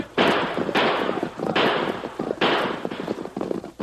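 Gunshots ring out in a Western shootout drama, a rapid series of loud, sharp cracks, each with a noisy decaying tail, the later ones coming quicker and somewhat fainter.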